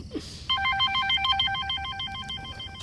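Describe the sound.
An electronic telephone ring begins about half a second in, its rapidly alternating warbling tones repeating in a steady pattern to the end, fairly faint over a low background hum.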